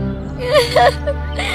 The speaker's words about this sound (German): Du brauchst nicht zu weinen, mein Kind.